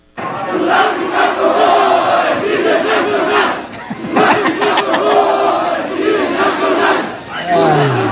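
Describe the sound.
Loud stadium crowd chanting in unison after a football match at the Estadio Ciudad de México, a dense roar of many voices sustained throughout, with brief dips partway through and near the end.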